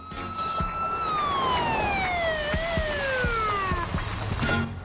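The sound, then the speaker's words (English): A police car siren wails as the car speeds down a New York City street at night, its loud tone sliding steadily downward in pitch before cutting off. “A police car tears down the road and pulls up by the sidewalk.”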